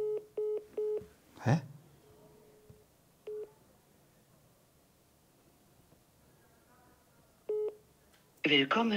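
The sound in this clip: Telephone keypad tones dialling a number: a few short, clean dual-tone beeps in an uneven rhythm, broken by a sharp click and long pauses, ending in a burst of louder noise.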